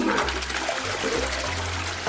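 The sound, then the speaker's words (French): A toilet flushes, a loud steady rush of swirling water with a low gurgling undertone that carries through to the end, with no voices. “On tire la chasse et tout s'en va, sans odeur, sans problème.”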